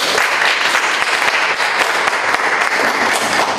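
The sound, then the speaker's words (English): An audience applauds to welcome a lecturer to a talk on transnational terrorism, with dense, even clapping that holds steady throughout and no voices. “Let's put our hands together to welcome him.”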